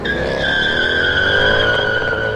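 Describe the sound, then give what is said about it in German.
Tyres squeal loudly as a black Mercedes speeds away. The shrill, steady screech runs unbroken for the whole moment at an even high level, with no voices over it. “Der ist jetzt mit einem Auto abgehauen. Ja, ein schwarzer Mercedes.”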